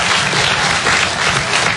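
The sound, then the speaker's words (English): An audience bursts into dense, loud applause, with many hands clapping in a steady, unbroken wash for under two seconds. “Clap if you're the clean one.”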